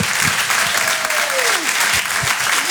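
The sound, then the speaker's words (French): Audience applause at a live comedy show: a dense, steady wash of clapping that holds at an even, loud level from start to finish. “Faites un maximum de bruit et encouragez s'il vous plaît PV sur Rire et Chanson.”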